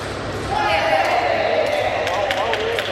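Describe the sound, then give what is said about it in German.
A small plastic ball is juggled by sepak takraw players warming up, giving a few sharp, light taps and bounces over steady talk. “Jetzt jonglieren sie mit einem kleinen Ball aus Plastik herum.”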